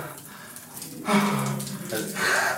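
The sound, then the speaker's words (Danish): Water runs from a tap to fill a bath, a steady rushing hiss that swells and shifts in strength, growing louder at a few points without a clear break. “nu skal jeg bade”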